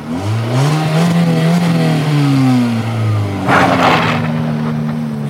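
A car engine drones while the vehicle drives along, its hum climbing in pitch, dropping sharply around a gear change, then settling into a steady tone. The sound is loud and continuous.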